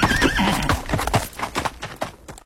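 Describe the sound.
A horse gives a wavering, high whinny, then hooves clip-clop in a quick, steady run of many beats that cut off abruptly at the end.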